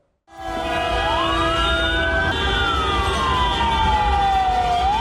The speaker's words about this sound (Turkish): Konvoy sırasında ambulans ilerleyemedi.